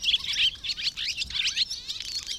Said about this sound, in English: If so, the chattering of this swallow probably is not music to your ears.